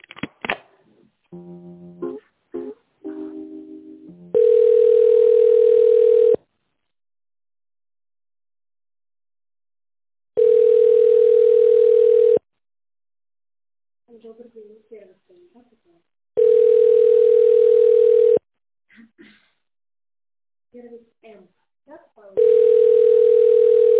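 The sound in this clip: Telephone ringback tone while a call is transferred: four long, steady single-pitch tones separated by silent gaps. Brief, faint other sounds fall in between, after a short mix of sounds at the start.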